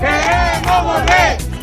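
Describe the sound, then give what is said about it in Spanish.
Street protesters in Ceuta chant and shout together during a nighttime protest. Their voices rise in a few loud, sustained bursts over a steady crowd murmur. “Este es el sonido de las protestas de esta noche. Los ceutíes han reclamado en las calles la vida que tenían antes”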